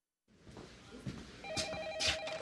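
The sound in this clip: A telephone rings in a scene from the film Alex Cross, where a killer calls a detective to taunt him. The bright ringing tone starts partway through over a low, muffled background.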